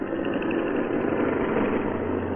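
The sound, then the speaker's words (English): A single-engine plane's engine drones steadily in flight, an even, continuous mid-pitched hum with a low rumble that holds constant throughout, with no talk. “As his plane headed eastward”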